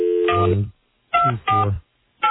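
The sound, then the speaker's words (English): Telephone dialing tones ring out in a few short bursts separated by brief silences, clear and fairly loud with no talking. “If you would both, after I dial, please pick up the warm line.”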